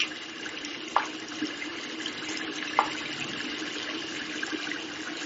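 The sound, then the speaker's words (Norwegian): Hands being washed with liquid soap under a running tap: a steady, even rush of water throughout, broken by two brief, sharp clicks, with no voices. “Så tar jeg sæpe fra den flytende dispenseren.”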